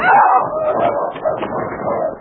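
Sled dogs bark, yip and whine excitedly as they leap forward from an ice floe onto solid shore ice. The loud, dense stretch of overlapping yelps and whimpers runs without pause.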